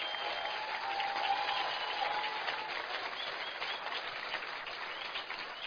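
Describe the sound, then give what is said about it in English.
Audience applause at a morning event as a guest is asked to stand, with dense, steady clapping from many hands that carries on evenly from start to finish. “Please stand up. Give her a hand.”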